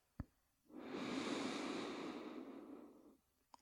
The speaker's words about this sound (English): And let's take another deep, great breath.